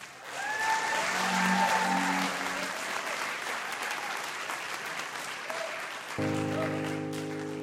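Steady audience applause welcoming a band holds at an even level for several seconds, and musical instruments enter near the end.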